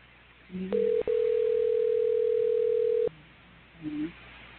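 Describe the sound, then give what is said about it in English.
A telephone dial tone sounds as the line dials out: a single steady hum lasting about two and a half seconds, starting and ending with sharp clicks, with quieter stretches before and after. “He's going to bring him straight in. He's going to dial out.”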